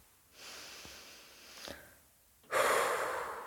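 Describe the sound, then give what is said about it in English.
A deep breath: a slow, soft inhale, a short pause, then a louder, rushing breathy exhale, heard alone without talk. “Stop and take a breath.”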